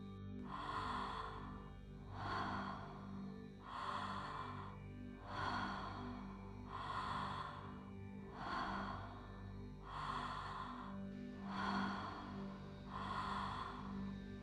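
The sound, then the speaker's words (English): Slow, soft breathing, with airy inhales flowing straight into gentle exhales, repeating in an even rhythm for many cycles. The breaths are faint and sit over a steady, low musical drone. “With no pause between inhale and exhale, softly release the breath. Listen to my breath and follow along.”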